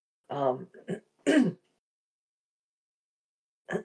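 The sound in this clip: Throat clearing from a person who says their throat is bothering them: a few short, rough voiced bursts close together, then a pause and one final brief rasp.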